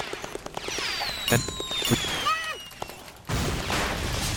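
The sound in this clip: Bomb blasts and gunfire-like sounds in a video game: many sharp pops and crackles, two louder bursts, then a sustained, loud, noisy roar near the end.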